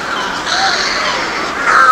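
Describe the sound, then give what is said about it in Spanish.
Birds cry out with harsh, raspy crow-like caws that form a continuous clamor throughout, swelling a little louder near the end. “También lo gritan los pájaros.”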